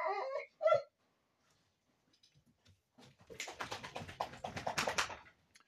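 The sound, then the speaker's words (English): A dog whimpers twice at the start with short, high, whiny cries. After a pause comes a fast burst of many scratchy clicks. “Sorry about that. That was my dog.”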